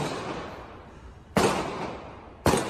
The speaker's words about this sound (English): There are gunshots.